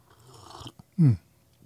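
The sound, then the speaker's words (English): A short sip of coffee: faint mouth noises, then one brief, strong low gulp, and quiet afterward. “Another sip of coffee.”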